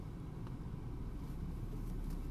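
A car creeping forward while parking close to a curb gives a faint, steady low engine rumble with no distinct events.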